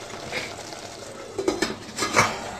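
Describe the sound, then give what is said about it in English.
Cubed aubergine being stirred into a simmering sauce in a pan: soft scraping and a few light utensil clinks against the pan over a low, steady background hiss. “cubed aubergine. Mix it in well and let it simmer for a while.”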